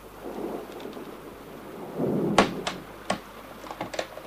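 Knocking on a door in foul, stormy weather: a few sharp raps stand out over steady rain and a low rumble of thunder.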